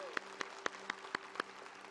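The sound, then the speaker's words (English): A church audience claps together in rhythm: six faint, evenly spaced claps over about a second and a half, above a low steady hum. “Come on, let's clap right now.”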